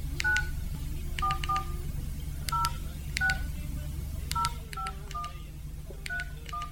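Telephone keypad touch-tones as a phone number is dialed, many short, clean beeps in quick irregular clusters, each pair of tones distinct, over a faint steady low hum.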